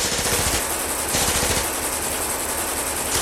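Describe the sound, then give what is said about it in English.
Rapid Tommy gun fire in a shootout, heard as fast, sustained rattling bursts: a short one followed by a longer continuous volley. “Those are Tommy guns! Alan and Shirley look at one another. Frank enters from the kitchen. It's a shootout!”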